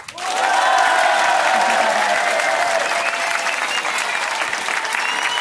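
Loud applause from an excited live audience at a game show welcoming a two-player team. The clapping swells almost at once into a dense, steady wash that carries on evenly to the end.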